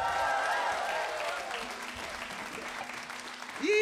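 Audience applause at a live concert for a female vocal group, dense continuous clapping that holds steady and thins slightly toward the end.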